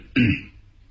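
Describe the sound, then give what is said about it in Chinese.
A man gives a single light, throaty cough after a sip from a small Japanese-style teapot. It is a brief burst with a short fading tail, heard alone. “韩老六从那炕桌上拿过了一把日本式的小茶壶，喝了一口，轻轻的咳嗽了一声”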